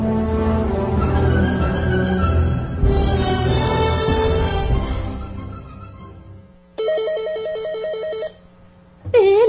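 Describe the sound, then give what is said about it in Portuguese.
A telephone rings with an electronic, warbling trill that sounds in one burst, pauses briefly, then starts again, clear and loud with no voices. “É ele outra vez. Atenda. Quem sabe ele não dá uma pista de onde está ligando.”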